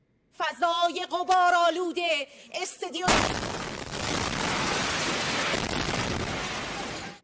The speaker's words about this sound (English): One strike targeting Iran's state-run television station was caught on camera.